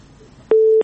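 A single steady electronic tone on a phone line as a caller from Badghis province is connected to a call-in program; one short, even beep lasting about a third of a second, loud after a faint hiss.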